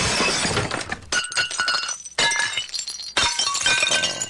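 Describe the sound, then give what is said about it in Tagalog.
Porcelain plates being smashed, several crashing breaks one after another, each a bright shattering burst trailing into tinkling fragments. “yung mga porcelain dyan, basagin mo na!”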